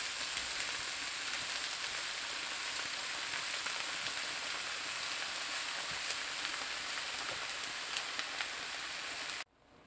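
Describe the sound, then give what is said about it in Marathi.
Spinach sautéing in a pan gives a steady, even sizzle with fine crackling that holds for about nine seconds before cutting off abruptly. “पालक व्यवस्थित परतून घ्यायचं आहे।”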